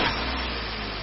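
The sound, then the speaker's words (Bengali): Steady low rumble of a car engine running as the driver starts the car on a rainy day, a brief, even hum with no voices. “আমাদের গাড়ির ড্রাইভারও গাড়ি start করল।”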